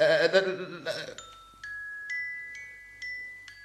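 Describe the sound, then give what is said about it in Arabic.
A mobile phone ringing with a repeating series of bright electronic chime tones at an even pace. A voice talks briefly before the ringing starts, and then the tones continue alone. “تليفونك يرن رد. هي تليفوني يرن.”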